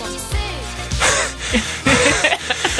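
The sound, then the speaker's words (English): Heavy, gasping breaths from a person out of breath after dancing, a series of loud huffs and pants in an uneven rhythm. “I'm sorry I'm out of breath”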